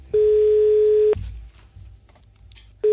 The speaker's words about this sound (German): die Julie werden wir jetzt mal anrufen